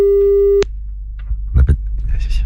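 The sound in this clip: A steady, single-pitched telephone line tone sounds while a call is being placed. It cuts off abruptly after about half a second, and a few faint clicks and brief rustles follow.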